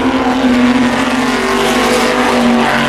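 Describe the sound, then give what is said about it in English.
Corvette race car engines in a GT race field give a loud, continuous rattling roar over a steady low droning hum, with no voices. “And you know I adore the sound of those Corvettes rattling away.”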